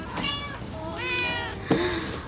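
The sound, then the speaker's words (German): A cat shut inside a box gives three drawn-out, mid-pitched meows with short gaps between them. The last cry begins more abruptly than the first two. “Eine Katze! War die ganze Zeit da drin?”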